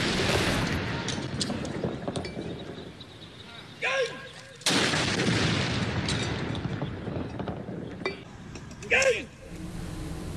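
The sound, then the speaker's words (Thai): Deep booming reports of a royal artillery gun salute, fired by an air force anti-aircraft regiment at an air force aviation park in Bangkok, sounding over a sustained rumbling background. “เขตบางกอกใหญ่กรุงเทพมหานครและกองทัพอากาศโดยกรมทหารต่อสู้อากาศยานรักษาพระองค์หรือบัญชาการอากาศโยธินยิงสลุดหลวงณอุทยานการบินกองทัพอากาศเขตสายไหมกรุงเทพมหานคร”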